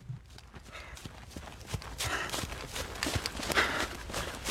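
Running footsteps of a boy pushed into jogging lap after lap on a training track, many quick footfalls in a steady clopping rhythm that grows slightly louder and busier toward the end.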